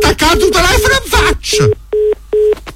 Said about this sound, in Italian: Ma attaccato telefono in faccia!